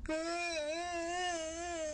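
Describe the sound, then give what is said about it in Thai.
Loud crying and sobbing of a little rabbit in a children's tale: a single continuous, wavering wail held for about two seconds, steady in loudness, with no other sounds. “เสียงสะอึกสะอื้นพร้อมกับน้ำตาของกระต่ายน้อยก็ไหลออกมากระต่ายน้อยเริ่มร้องไห้เสียงดัง”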